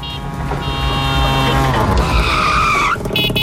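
A tuk-tuk revving loudly with a squeal of tires in a radio jingle, the engine holding a steady, bright whine before a sharp change near the end.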